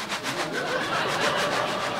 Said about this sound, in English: Stop! Oh, my God! It's just a train, okay? No worries. Well, just wait. I really like trains.